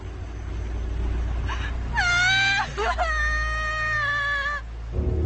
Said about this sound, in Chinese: 你别害怕，你别哭啊！